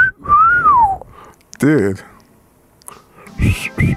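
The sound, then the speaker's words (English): A person whistles a single sliding note that climbs slightly and then falls away over about a second. Short bursts of voice follow it. “Yeah, it's just me doing it. I do it every time. Every time you hear this, it's me doing it.”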